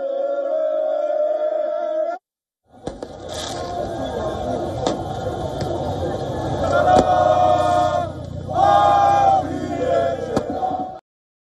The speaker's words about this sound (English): Celebrations also erupted in France as PSG supporters danced and cheered near Paris's famed Eiffel Tower on the Champs-Élysées.